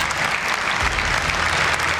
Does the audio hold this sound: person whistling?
no